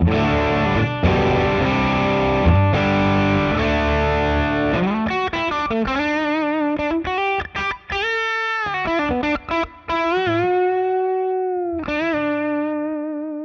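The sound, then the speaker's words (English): An electric guitar plays through a crunchy, neutral-sounding overdrive with the amp's bass turned all the way down and the gain around two o'clock. Strummed distorted chords give way to a sustained single-note line with ringing, held notes. “So as you can see, much, much crunchier, much more like a neutral sounding overdrive.”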